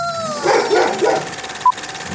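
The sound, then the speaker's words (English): Dogs barking in the background: a few short, yipping barks and whimpers in quick succession, followed by a brief high electronic beep. “please excuse the dogs if you hear them in the background.”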